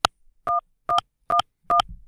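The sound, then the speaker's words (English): Dual-tone beeps like telephone keypad presses come through on a radio feed. Four short bursts are spaced roughly half a second apart against near silence. “And I'm sorry if you're hearing beep tones. I don't know where they're coming from.”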